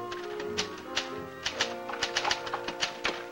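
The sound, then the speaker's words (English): Typewriter keys clacking as someone types at a low table, a string of irregular sharp taps that grows quicker and denser toward the end, over a faint steady tonal background. “He crouches over a typewriter on a low table. I started to work.”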